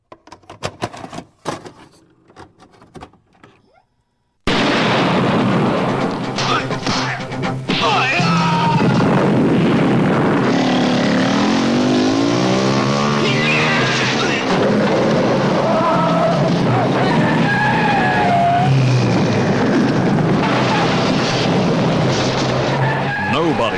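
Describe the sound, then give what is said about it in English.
Soundtrack from the trailer for The Man from Hong Kong: a few seconds of faint, scattered noises, then a loud, dense, continuous mix of screeching tyres, car engines and voices. “I will play the trailer for everyone to listen to, and then when we come back, we will discuss the movie proper.”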